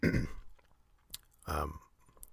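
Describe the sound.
Chewing food while eating, faint, soft mouth sounds and crunchy bites in a few short bursts separated by quiet pauses.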